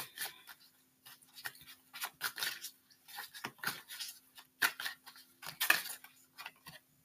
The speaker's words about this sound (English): I'm gonna pull some cards here and I'm just gonna freestyle it, so whatever comes out comes up.